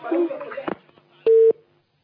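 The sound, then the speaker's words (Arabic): A single steady electronic tone, like a busy signal after a dropped phone call, sounds briefly and evenly after a stretch of talk, then gives way to silence. “للاسف الاتصال انقطع”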